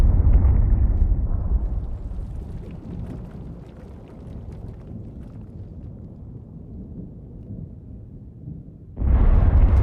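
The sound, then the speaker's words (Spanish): German artillery shelling a city: a heavy, continuous low rumble that eases slightly after the opening, holds steady, then swells loud again near the end. “La artillería alemana bombardea la ciudad de la mañana a la noche.”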